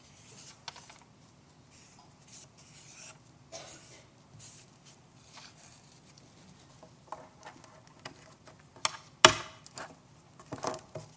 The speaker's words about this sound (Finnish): Eli mä kirjoitan tämmöisen lapuun, johon kirjoitan tämän muistiosoitteen 234.